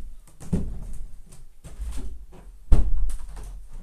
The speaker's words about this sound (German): Muss noch kurz mein Fenster zumachen. Einen Moment.